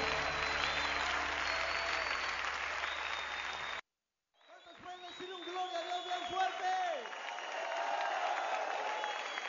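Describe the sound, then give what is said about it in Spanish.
A church audience applauds the Lord in worship. Loud, dense clapping runs for several seconds and then cuts off abruptly. After a short silence, voices rise and carry on. “Dale fuerte ese aplauso al Señor.”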